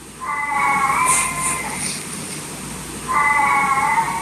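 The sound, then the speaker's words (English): A black and white cat meowing mournfully at bedtime: two long, drawn-out, wailing meows separated by a pause of about a second and a half, loud and clear. “If there was a sad black and white cat movie, it would be this sound, right? It's a different kind of meow,”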